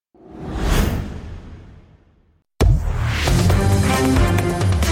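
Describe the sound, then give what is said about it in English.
A breaking news sounder jingle opens with a swelling whoosh that fades out, then a brief silence before a loud, bright musical sting with sustained tones cuts in. “Why does your breaking news sounder sound like middle school television news that goes closed circuit?”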